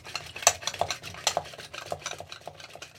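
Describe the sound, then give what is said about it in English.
Eggs being stirred in a bowl to scramble them, a fairly faint, quick run of scraping strokes and light clinks of a utensil against the bowl, many in irregular succession. “It's kind of working. Yeah, it is. Yeah. Trying to scramble some eggs.”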